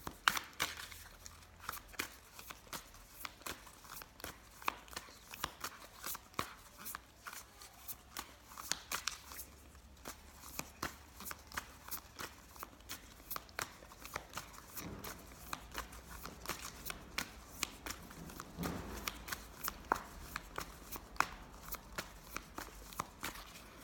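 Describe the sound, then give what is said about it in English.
Tarot cards being shuffled and drawn: many faint, irregular flicks, soft slaps and papery rustles spread throughout, with occasional sharper taps and no talk. “Okay, drawing the cards.”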